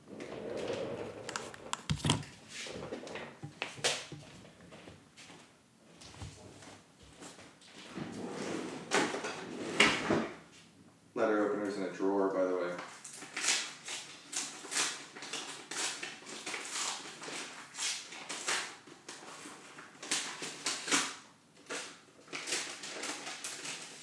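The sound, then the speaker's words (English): Household movement as someone gets up from a chair, walks around a kitchen island and slits open a paper envelope, a bill, with a letter opener: many clicks, knocks, shuffling steps and paper rustles, moderately loud, with no talking. “taking off my headphones, getting out of my chair, walking to the other side of the kitchen island and getting my letter opener and opening my internet bill and looking at it.”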